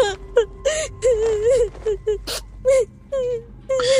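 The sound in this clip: Frightened whimpering and crying fill a room: many short, broken wails with wavering, quivering pitch, rising and falling, separated by brief gasping pauses.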